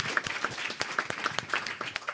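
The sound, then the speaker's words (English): Audience applause for a child after a brainwave demonstration, made up of many distinct claps in a loose, uneven rhythm at moderate loudness. “Can we have a big round of applause for Maddie and her beautiful brainwaves?”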